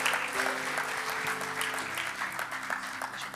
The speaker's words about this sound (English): I know God is going to speak to us this morning, so would you give him a big warm welcome as he comes to share.